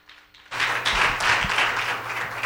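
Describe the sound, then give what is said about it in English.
An audience claps hands in praise during a church service. After a quiet half-second the clapping bursts in loudly and continues as a dense, steady patter to the end. “While they come, give the Lord a hand clap of praise.”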